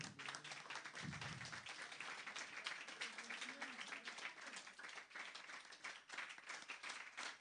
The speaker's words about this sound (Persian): دست بزن دوباره